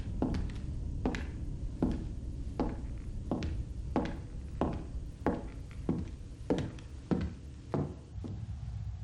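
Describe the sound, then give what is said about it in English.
Footsteps walking down a hallway, a steady run of evenly spaced sharp taps over a constant low background rumble. “Jesse sees an open door at the end of the hallway. She walks towards it.”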